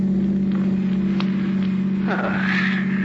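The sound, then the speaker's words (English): A car drives down the coast toward New York with a steady, low engine drone throughout, and a voice speaks briefly over it near the end. “as you're driving Neil down the coast toward New York”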